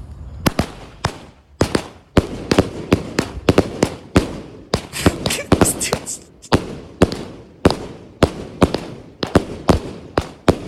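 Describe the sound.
Loud fireworks go off in a neighborhood firework battle: many sharp bangs and cracks fire in rapid, irregular bursts, some clustered close together and others spaced apart, continuing throughout.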